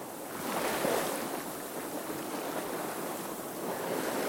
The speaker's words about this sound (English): Yeah, it's wind against tide. I mean, it's fairly well sluicing through here one direction